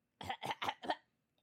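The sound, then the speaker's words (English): A person makes four harsh coughing, throat-clearing bursts, as if something were stuck in the throat. The bursts come in a quick, even rhythm and are heard alone against silence. “Ugh, ugh, something stuck in my throat.”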